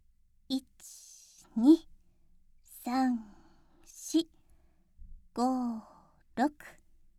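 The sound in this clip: Several breathy, voiced exhales from a person doing a stretching exercise, each a short sigh-like push of air with a soft hiss, separated by pauses.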